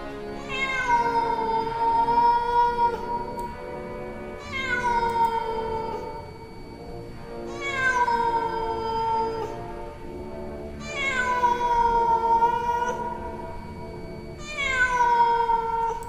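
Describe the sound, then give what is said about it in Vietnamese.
A cat yowls in five long, drawn-out calls, each sliding downward in pitch, separated by short pauses. The calls are loud and carry on their own, with no voices. “Một con mèo từ bên trong bụi cỏ xông lên, lao thẳng đến chỗ Diệp Thiếu Dương.”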